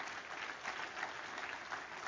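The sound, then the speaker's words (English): Applause given as a clap offering to the Lord in a church service, a dense, continuous wash of clapping that stays fairly faint and even throughout. “Give the Lord a good clap offering, would you?”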